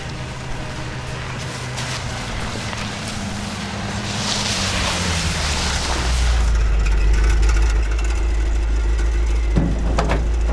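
Steady low engine rumble of a car being driven, with a broad wash of wind and road noise on top. It grows noticeably louder and heavier partway through, then holds constant. No voices are heard.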